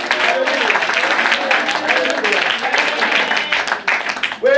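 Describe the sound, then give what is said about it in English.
Congregation clapping hands for the Lord in church, steady rhythmic claps under loud voices and sung tones. “Can you clap your hands for the Lord?”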